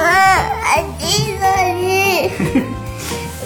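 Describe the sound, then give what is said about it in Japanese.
A six-year-old child crying, with wavering, high-pitched wails in several bursts that bend up and down, while an adult voice talks underneath. “ラジオ収録中だから泣かないの”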